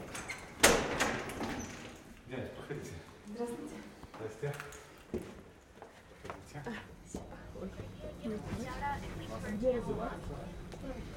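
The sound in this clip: A door being opened to let visitors into an apartment, with a sharp click and thud near the start followed by softer shuffling as people talk.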